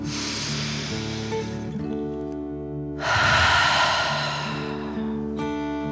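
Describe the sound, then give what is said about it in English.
One slow, deep breath drawn in and then let out, part of a relaxation exercise for children. The airy inhale and fuller exhale sit over a steady, sustained music bed. “Deep breath in and out.”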